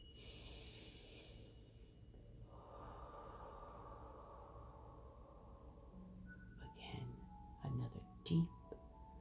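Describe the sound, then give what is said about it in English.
Slow, deep breathing during a guided breathing exercise, heard as faint, drawn-out airy inhales and exhales with a couple of short, louder breathy sounds near the end. “Inhale and exhale the vibration. Again. Inhale and exhale the vibration.”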